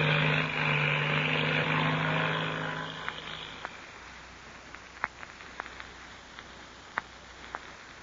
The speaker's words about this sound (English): Two shadowy figures, Patsy Donovan and the Mexican boy Pebbles, listened to the takeoff of the black two-seater. And then, when the sound of the engine had faded into distance,